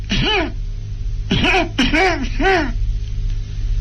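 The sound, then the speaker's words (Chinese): A voice acts out deliberate, attention-seeking coughs by a bride waiting under her veil: four short, voiced throat-clearing coughs, one alone and then three in quick succession, over a steady low hum. “故意的咳嗽那么几声”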